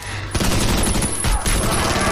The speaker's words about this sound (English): As the militia opens fire, Ray charges them one by one.